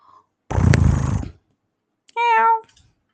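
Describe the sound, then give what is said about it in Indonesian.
A voice imitates a cat's meow: first a long raspy, noisy burst, then after a pause a short, clear, tonal meow-like cry, both fairly loud and alone. “suara kucing tuh bukan gitu, tahu suaranya gini. Ah, meyong, meyong.”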